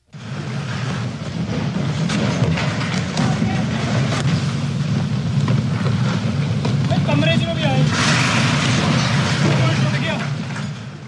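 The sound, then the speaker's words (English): A landslide in a mountain valley makes a deep, continuous roar as massive boulders roll down the mountain, hit cars and break a bridge. The rumble stays loud throughout, and a voice briefly rises over it. “Well, that was the sound of a video taken during a deadly landslide in the Sangla Valley. The video shows massive boulders rolling down the mountain, hitting cars, breaking a bridge in half.”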